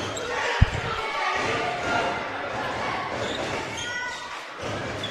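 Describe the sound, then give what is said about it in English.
A basketball bounces on the court during a college game between the Tigers and the Volunteers. One sharp, punchy bounce comes early, then steady crowd noise and commentary carry on beneath. “Tigers with the basketball and the lead here.”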